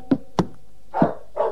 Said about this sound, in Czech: Ten pes nás odtud nechce pustit.